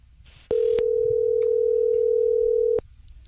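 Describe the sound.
A telephone dial tone sounds as a number is about to be dialed: one steady, loud, unbroken mid-pitched tone lasting a little over two seconds, with a sharp click at its start and end and no talk.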